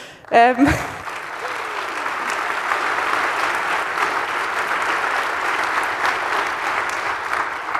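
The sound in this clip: Audience applause at a conference with speakers on a podium, a dense, steady clapping that holds at an even, moderate loudness for several seconds.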